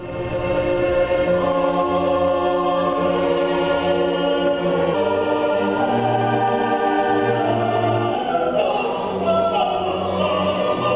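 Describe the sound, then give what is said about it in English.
Choral and orchestral performance of Mozart's Mass in C minor, given in concert at St. Elias Maronite Cathedral in Aleppo, Syria. Sustained voices and instruments hold full, steady harmony, with the chords shifting around the middle and again near the end. “You are listening to Mozart's Mass in C minor, and this concert is taking place at the St. Elias Maronite Cathedral in Aleppo, Syria.”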